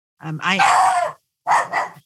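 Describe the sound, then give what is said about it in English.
A female dog barks in two loud bursts separated by a short silence, the first longer and drawn out with a growling edge, the second brief, heard alone. “That's my dog. No worries.”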